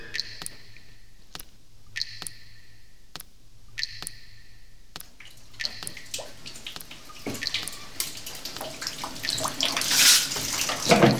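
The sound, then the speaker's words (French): A sound installation in an empty room of a half-ruined old abbey mixes running water with a loudspeaker spinning like a top. Regular sharp clicks with brief tonal bursts come first, then rushing water swells louder toward the end. “est enregistré dans une pièce vide d'une vieille abbaye à moitié en ruine. Il y a de l'eau qui coule, un haut-parleur qui tourne comme une toupie, un autre qui descend du plafond puis qui remonte”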